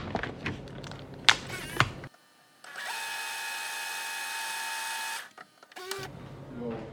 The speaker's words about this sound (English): I've managed to get it all back together. I'm putting the last screws in.